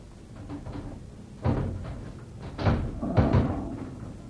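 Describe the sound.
A lid being taken off and a container opened, heard as a few dull knocks and thumps with some scraping. The sounds are fairly faint and spaced apart.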